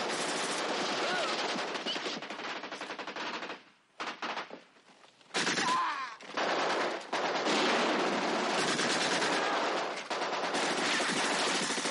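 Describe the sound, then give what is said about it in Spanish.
Heavy machine-gun fire and gunshots from a 1970 war film crackle in sustained loud bursts, dropping to a brief lull partway through before the rapid firing resumes at full intensity. “Entonces el cabo se incorpora para disparar mejor y otro tiro le alcanza a él.”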